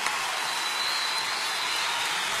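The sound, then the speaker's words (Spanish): A live concert audience gives an ovation, its applause a continuous hiss-like wash of many hands at an even level. “¡Qué ovación! ¡Qué lindo!”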